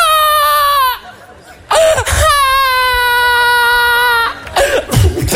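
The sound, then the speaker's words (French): A baby cries in a few long, high, sustained wails with short gaps between them, loud and strained, ending in rougher, noisier bursts. “Ça va, arrête de pleurer!”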